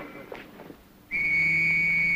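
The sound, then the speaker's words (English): A police constable's whistle shrills on a busy London street beside a lifeless girl: after quiet street murmur, one long, steady, piercing blast begins midway and holds, loud and unbroken, to the end. “A constable in a black domed helmet blows a whistle by the lifeless body of the girl.”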